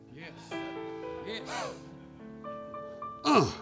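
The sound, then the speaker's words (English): A voice imitates a breath with a breathy H sound, spoken among sustained vocal tones and ending in a louder rush of air. “But you say that H like this. He puts that breath of God in him.”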